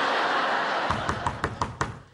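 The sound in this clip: Knocking on a door: a quick, even run of firm raps that starts partway through, over a steady background hiss, with no talk.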